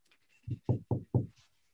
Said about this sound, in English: So, dust off the snow. See if I can see any writing on it. And I knock too, just